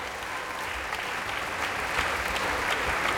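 Applause from an opera audience at the end of a performance as the singers, chorus and orchestra return to the stage: steady, dense clapping that holds its level throughout without letting up.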